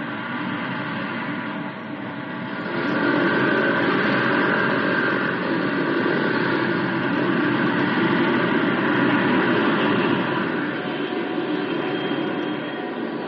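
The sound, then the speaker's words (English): A steady, loud roar from an Air Force aircraft taking off from a runway. The broad engine rush swells after a couple of seconds, then holds even and heavy to the end. “Air Force 1110, ready for takeoff. Roger, 1110, you are clear for takeoff on runway 35.”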